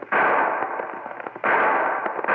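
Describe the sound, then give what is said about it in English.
Rifle gunshots in a western radio drama: two loud blasts, each with a sharp onset and a long, rough, noisy tail, heard alone without voices. “I'll give him back some of that lead from the muzzle of his rifle.”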